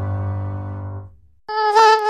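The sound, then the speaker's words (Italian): Mosquito buzzing: a low droning hum that fades out, then after a short gap a thin, higher whine that wavers in pitch, fairly loud with no voices. “stanno tornando le zanzare”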